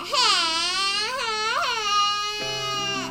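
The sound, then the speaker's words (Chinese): A young child cries and sobs, upset with their father. The wavering, high-pitched wails rise and fall in pitch and run continuously without a break. “比比又委屈的哭了。”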